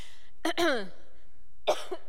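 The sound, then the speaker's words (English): Coughing from a tickle in the throat, with short, raspy bursts in two brief groups separated by a quiet pause. The coughs are heard alone. “Man, you have to just identify every tickle in your throat that happens these days.”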